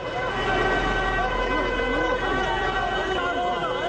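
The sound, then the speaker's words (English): Emergency vehicle sirens arrive at a burning vehicle in Gaza City: several loud wailing sirens overlap, their pitch sweeping up and down continuously over a dense rumble of road traffic. “Here is the sound of emergency vehicles descending on a burning vehicle in Gaza City.”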